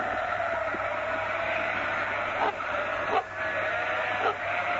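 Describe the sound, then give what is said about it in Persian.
A huge flock of about a thousand sheep bleats outside a religious seminary, a dense, continuous wash of overlapping calls with a few louder bleats rising out of the steady din. “یعنی 1000 تا گوسفند اینجاست به خدا.”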